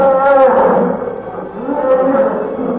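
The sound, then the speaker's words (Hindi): A lion lets out a terrifying roar as it attacks a deer: a loud, drawn-out, harmonic bellow that eases off, then swells again into a second, lower growl. “एक खौफनाक चीख के साथ शेर ने एक हिरन पर हमला कर दिया।”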